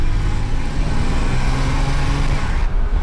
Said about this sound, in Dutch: We rijden nu door een drassig weiland. Het is hier extreem modderig nu, hè? Dus om even nog een keer te demonstreren hoe die vierwielbesturing werkt.